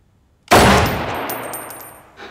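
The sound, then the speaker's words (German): A heavy, compact firearm fires a single sharp blast after a moment of quiet, and a long ringing tail fades slowly with faint metallic overtones. “Und die Mündung bitte immer nach vorne und den Finger vom Abzug, das macht mich nervös. Hm. So, jetzt schießen Sie mal.”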